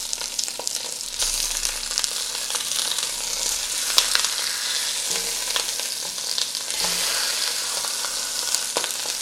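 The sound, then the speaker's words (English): Sizzling of meat shanks browning in a hot pan: a steady, dense frying crackle scattered with sharp pops and spits of splattering fat, with no voices. “Trying to get these shanks browned is not easy because they're not like a uniform size.”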